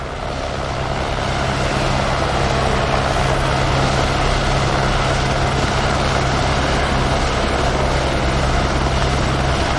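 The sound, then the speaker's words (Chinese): Engine roar of Mercedes racing cars driving on a circuit race track, a loud, steady drone that holds throughout with no clear rises or falls in pitch. “这两辆梅奔的赛车呢，在最近的这十圈的比赛中啊，赚足了转播的镜头。”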